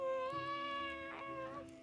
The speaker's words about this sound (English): Oh no, are you a cat? Oh dear. We have a big problem here, friends. We've got a cat present.